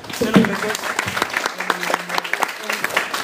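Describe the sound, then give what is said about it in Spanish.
Applause with many hands clapping in a steady, fairly loud patter, with voices talking over it throughout. “Un aplauso.”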